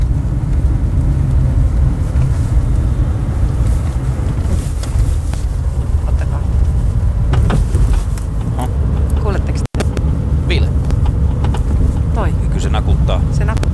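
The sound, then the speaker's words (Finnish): Intermittent knocking rattle inside a car, coming from the rear axle area, over a steady rumble of road and engine noise, with sharper clunks more frequent toward the end as the car drives over bumps. “Niin tää on nyt sitten tänään äänitetty mun autosta, niin toi kolina, mikä tuolta kuuluu, niin mitä tapahtuu, auttakaa. Se kuuluu aina hetkittäin, varsinkin tuolla lopussa.”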